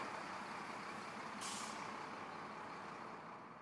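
A heavy truck loaded with chains and bungee cords drives out through a gate, its engine rumbling steadily throughout, with a short burst of air-brake hiss about midway.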